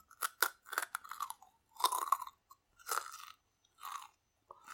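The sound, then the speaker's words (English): Someone chews a crunchy snack, with many crisp, loud crunching bites in irregular bursts separated by short pauses. “we are going to do some ASMR of me eating a fucking talkie.”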